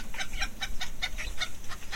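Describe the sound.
Hens cluck in a quick, steady series of many short, sharp calls at a moderate level, with a faint low background beneath and no voices.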